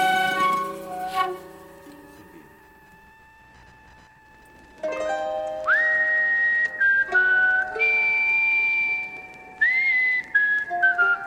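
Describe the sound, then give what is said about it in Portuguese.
Ventriloquist-style whistling: after several seconds of quieter sustained tones, a loud, high whistled melody of long held notes with short upward slides between them plays alone. “Assobio com biquinho, sem biquinho. Esse assobio aí que eu tô fazendo é o assobio de ventrilo”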